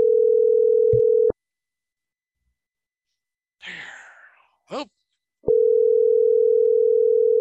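A steady telephone dial tone sounds before an outgoing call is placed. It is a loud, even, unbroken hum. It cuts off into silence, then a couple of soft breathy sighs follow before the same tone returns.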